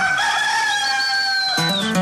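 Rooster crows in one long, strained, sustained call that holds a steady pitch and dips near the end, breaking off into a short burst of a different sound.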